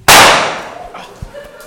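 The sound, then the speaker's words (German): Grenade explosion in a combat scene: one sudden, loud, sharp blast that decays over about half a second, followed by a few faint scattered pops and rattles. “Wirf eine Granate! Granate fliegt! Deckung! Ohren zu!”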